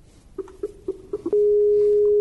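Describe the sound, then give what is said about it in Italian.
Skype call connecting tone: a few short, low beeps in a row, then a steady held tone of the same pitch that continues to the end. “Continuiamo la diretta oggi con il collegamento in Skype con Sabrina. Provo a fare il collegamento subito.”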